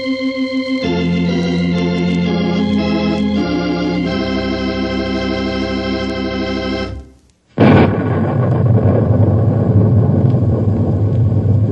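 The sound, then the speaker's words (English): Thunder rumbles as a loud, broad, steady roar over the last few seconds, after a sustained tonal passage cuts off abruptly. “I'm sure you recognize that sound you just heard. In fact, you can still hear it a little bit, I guess. It's thunder.”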